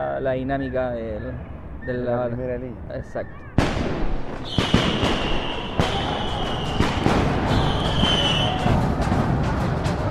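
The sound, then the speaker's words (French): Tear gas canisters being fired at protesters at a street protest: someone talks briefly, then several sharp, loud bangs ring out over a steady roar of crowd and crackling noise, with a high whistling tone. “C'est là que commence la bataille. Ils commencent à réprimer, à tirer des lacrymogènes.”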